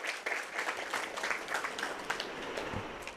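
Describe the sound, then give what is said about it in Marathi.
An audience applauding a student at a college event, with dense, steady clapping that stays fairly faint and continues throughout. “आपल्या या मैत्रिणीसाठी एकदा जोरदार टाळ्या उंचावू द्या.”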